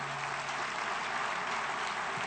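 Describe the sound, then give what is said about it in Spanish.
Applause at a public event honouring teachers, parents and athletes: a fairly faint, continuous wash of many hands clapping with no clear breaks. “Un aplauso para todos ustedes.”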